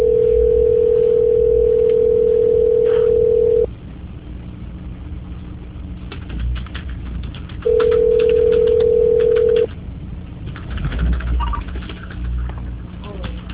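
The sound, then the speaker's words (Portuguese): A steady mid-pitched telephone line tone plays while a call is being transferred. It sounds twice: first for nearly four seconds, then after a gap of faint background noise, again for about two seconds. “Transferindo sua ligação, senhora. Muito obrigada pela sua atenção. Só um minuto. Transferência.”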